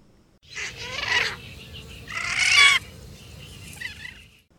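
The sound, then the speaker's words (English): Magnificent frigatebird chicks give begging calls while being fed by their parents: two harsh, nasal, wavering bursts, the second louder and longer, over a steady low background hiss. “Sometimes they really go at it and sound like angry pterodactyls. The chicks also make begging calls when they're getting fed by their parents.”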